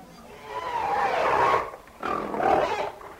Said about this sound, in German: Noch quiekt und grunzt das kleine Schwein.